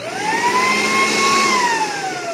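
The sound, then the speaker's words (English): A leaf blower and mulcher in blower mode, first speed, gives off a loud, steady whirring whine that climbs briefly at the start, holds, then sags a little toward the end, with no talk over it. “But this is just the blower mode right now. And then there are a couple speeds. So I can go.”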